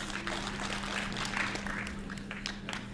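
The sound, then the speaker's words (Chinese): Audience applause at a Beijing stage comedy show before a Shaanbei folk song: steady, moderately loud clapping sustained throughout. “再来点掌声。”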